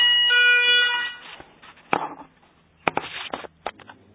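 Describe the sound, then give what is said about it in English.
A church alarm goes off briefly with a steady, buzzy electronic tone for about a second before fading. A few sharp knocks and clatters follow in otherwise quiet surroundings. “There we are, just to prove that I'm actually at the church. That was the alarm going off briefly.”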